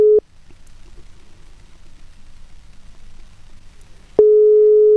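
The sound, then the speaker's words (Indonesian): A telephone call tone sounds while someone is being called: a short steady electronic beep, a stretch of near-silence with faint low hiss, then a second, longer steady beep of the same pitch. “Oke, aku akan coba untuk menghubungi beliau.”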